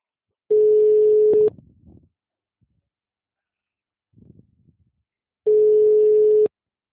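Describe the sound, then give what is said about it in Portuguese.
After a dropped call, a telephone tone sounds as two steady, loud, mid-pitched beeps of about a second each, separated by a long gap with faint line noise and a brief low murmur. “Oi, Antônio, desculpa, a ligação tinha caído de novo”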